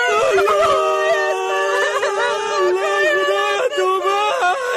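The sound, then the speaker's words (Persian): A child crying in one long, loud, unbroken wail whose pitch wavers and quavers throughout. “بچه چرا گریان میکنی؟”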